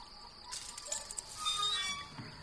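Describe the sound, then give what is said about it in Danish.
Faint metallic clinks and clicks as the cage holding an African desert monitor is unlocked, a quick cluster of light jangling taps followed by softer rattling. “Ja, hvad er der så låst ind i buret? En afrikansk ørkenvaran. Og jeg skal med glæde låse op, så kan du selv se efter.”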